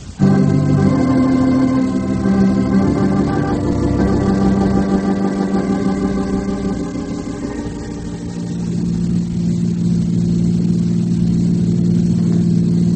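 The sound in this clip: A car engine starts with an abrupt loud burst and settles into a steady droning hum as the car drives off. The sound dips midway before swelling again.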